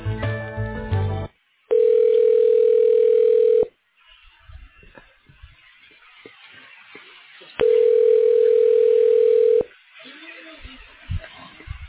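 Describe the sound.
Steady telephone tones while a call is being transferred: two long, even, mid-pitched tones of about two seconds each, separated by a pause of faint line noise, after a brief burst of other sound at the start.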